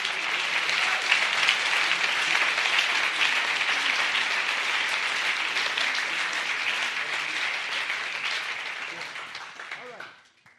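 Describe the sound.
Loud, dense applause from a conference audience for a guest speaker and his interpreter, a steady roar of many clapping hands that holds for about nine seconds, then fades out.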